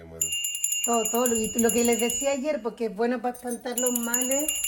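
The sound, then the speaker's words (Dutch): A small bell hanging between photos is rung, giving a high, sustained, tinkling ring in two spells while a person talks over it. “Ze klingelt met een belletje dat tussen de foto's hangt.”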